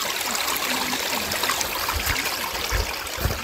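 Flowing water from a small, clear stream at Kannakkarai makes a steady, even rush and trickle that stays at the same level throughout, with no voices.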